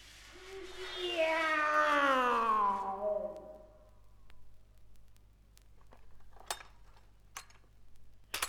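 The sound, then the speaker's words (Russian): A cat lets out one long, drawn-out meow that slides downward in pitch, followed by near quiet broken by a few faint clicks and light clatter. “Кис. Фунтик. Фунтик. Где ты, милый котик?”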